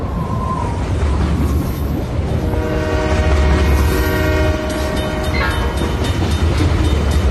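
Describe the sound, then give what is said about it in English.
A train passes through a village with a loud, steady rumble and rail clatter, while a sustained horn blast sounds through the middle of the passage. “So there's a train. That's a train going through a village.”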